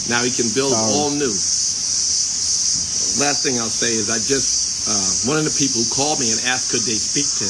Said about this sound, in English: I had to stop that, y'all, because that noise was kind of like bothering me. Y'all, I told y'all he's in Zimbabwe and crickets and water bugs and lightning bugs